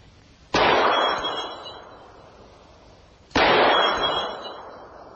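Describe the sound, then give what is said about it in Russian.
Two loud gunshots about three seconds apart, each a sharp crack followed by a long, slowly fading ringing tail, with no voices between them. “Стреляет.”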